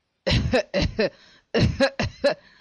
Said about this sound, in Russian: Он захлебнулся в судорожном кашле.